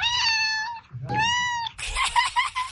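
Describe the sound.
A domestic cat meows: two long, clear, harmonic meows in a row, then a rougher, noisier cry that breaks up toward the end.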